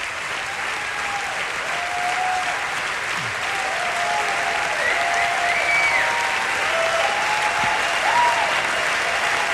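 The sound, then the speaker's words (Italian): A standing audience applauds during an encore break at a live concert in a Rome auditorium, a loud, dense and continuous roar of clapping that stays steady and swells slightly toward the end. “tutto il pubblico in piedi ad applaudire”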